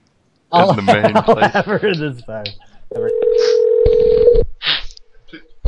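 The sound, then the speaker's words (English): Steady telephone tone held for about a second and a half while someone phones a fitness gym, following a stretch of talking, with a few short faint sounds and speech after it. “Okay. Calling Planet Fitness.”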